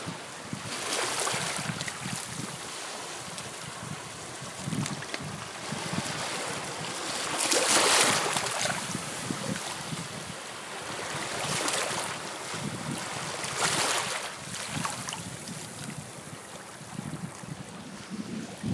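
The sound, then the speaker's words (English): Pacific Ocean waves washing onto the shore where mussels cling: a continuous broad rushing wash that swells into a few stronger surges, with no voices. “So this is the sound of the Pacific.”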